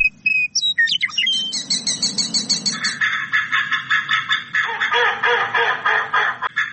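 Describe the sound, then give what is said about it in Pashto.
Many birds chirp and twitter at a wetland on the edge of Kabul, a spring stopover for migrating birds. Bright, high calls overlap in a steady, busy rhythm, with a low rumble underneath at the start. “د کابل ښار په لمن کې کول حشمت خان هغه سیمه ده چې په پسردی کې هر کال له دریو تر څلور سوه ډوله مرغان دلته دمه کوي.”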